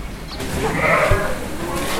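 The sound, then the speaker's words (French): A ewe about to give birth bleats once, a drawn-out, wavering mid-pitched cry over steady low farmyard background noise. “Il y a une brebis qui va faire son bébé.”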